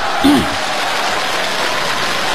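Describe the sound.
Audience applause at a live comedy show in Beijing: a broad, even wash of clapping that holds steady throughout, with a brief voice near the start.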